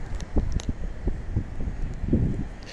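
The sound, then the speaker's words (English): Outdoor wind buffets the microphone with a continuous low rumble and uneven gusting bursts, and no voice is heard. “I see the bars are really moving from the wind. Let's see if I can cup it somehow.”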